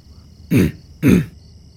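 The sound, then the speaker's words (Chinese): Throat clearing: a person clears their throat twice in two short, gruff, rasping bursts separated by a brief pause, with no talk. “看到他们都坐稳了，并聚精会神地等待着，麦哲清了清喉咙，”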